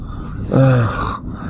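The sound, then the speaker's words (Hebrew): A person climbing stairs lets out a single strained, voiced heavy breath, close to a groan, rising briefly over a steady background hiss, with no talk. “עולה הביתה, מתנשף במדרגות”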